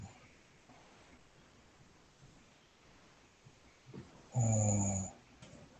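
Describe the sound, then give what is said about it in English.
A single snore from a sleeping person, a short rasping, buzzy breath of under a second that stands out loudly against an otherwise quiet, faint background hiss. “Is someone snoring?”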